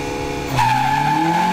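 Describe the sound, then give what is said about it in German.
Rallycross cars at a motorsport arena during a German championship: engines drone loudly, then a sharp, sustained tire squeal cuts in about halfway through and holds a high, steady tone over the engine noise. “und deren Herzen beim Motor geknatter, gequietsche und Geheule höher schlägt, haben wir was. Denn am Wochenende ist die deutsche Rallye-Cross-Meisterschaft DRX zu Gast in der Motorsport-Arena Oschersleben.”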